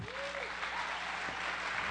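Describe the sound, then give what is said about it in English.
A church audience gives a children's choir a round of applause. The clapping is continuous and full for the whole two seconds, with a brief voice audible at the start. “So let's give it up for these kids one more time.”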